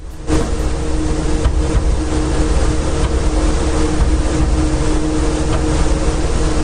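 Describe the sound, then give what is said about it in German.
A steady, loud drone from a server rack with poorly damped hard drives, a dense whirring wash with a low hum underneath that holds evenly throughout. “Das ist mein Server-Rack mit etwas schlecht gedämpften Festplatten. Die machen immer so Holpergeräusche.”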